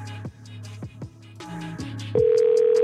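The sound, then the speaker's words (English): A telephone dial tone for an outgoing call starts partway through and holds one steady, unwavering pitch to the end, following a stretch of other tonal sounds. “I'm going to call them all back now and try and resolve it.”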